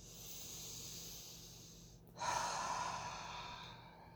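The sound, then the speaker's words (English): Deep breathing during a guided meditation: a long, soft airy hiss of breath pauses briefly, then a stronger breathy exhale through the mouth swells and slowly fades. “We breathe deeply, releasing out our mouth as we go.”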